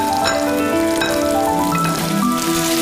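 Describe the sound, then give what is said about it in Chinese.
Blanched pork belly stir-fries in hot oil inside a clay pot, giving a steady, dense, rain-like sizzle and crackle that holds even throughout, with music playing along with it. “沙包淋油烧热，经过汆水五花肉入包翻炒”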